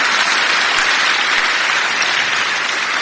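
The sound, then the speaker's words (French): Congregation applause at a French-language church service honouring Jesus: a dense, steady wash of many hands clapping at even, loud volume throughout, with no voices over it. “applaudissons-le encore, ce Jésus merveilleux qui est là.”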